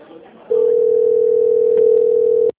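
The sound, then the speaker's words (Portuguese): After a dropped call, a telephone line gives a steady, unbroken, mid-pitched tone lasting about two seconds, then cuts off abruptly; faint low noise comes just before the tone starts. “Seu Carmo está na linha? Sim. A ligação caiu.”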